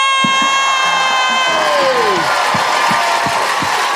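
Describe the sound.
An audience at a live stand-up comedy show cheers and applauds in a loud, continuous roar, with a long whistle sliding downward and scattered sharp thumps and claps.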